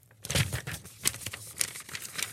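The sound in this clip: Paper envelope being torn open by hand: a quiet series of crinkling, rustling and ripping bursts, with no speech.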